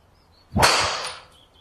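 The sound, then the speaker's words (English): A golf driver strikes a ball, hit slightly high on the face: one sharp, bright crack that fades out over about half a second, heard alone. “That's as piped as you can with that driver, right? Just that about. It felt a little bit high off the face.”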